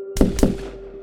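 Two rifle gunshots crack in quick succession, each a sharp, loud bang with a short decaying tail, over a steady low tone.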